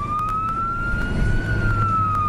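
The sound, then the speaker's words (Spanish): Emergency sirens wail through the night in Cali. A loud, sustained tone swells gently in pitch and eases back over a low rumble of traffic, with a few faint clicks. “Una vez más, las sirenas resonaron en la noche caleña.”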